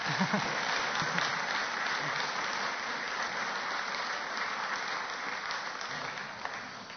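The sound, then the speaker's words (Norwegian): Steady applause from a gathered audience welcoming three women called up to the front at an organisation's meeting. The clapping stays even and fairly soft for about seven seconds, thinning slightly near the end. “så kan de godt få en applaus, så de kjenner seg velkomne.”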